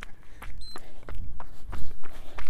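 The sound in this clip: Footsteps of a slow jog: a steady rhythm of many soft thuds at an even pace, each footfall landing with a dull scuff, and no voices over them.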